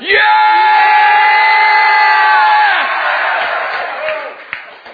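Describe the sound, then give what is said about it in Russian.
A crowd shouts the Latin name for Finland in one loud, unified, sustained cry lasting nearly three seconds, then trails off into scattered voices and murmuring. “Finlandia. Let's shout with them.”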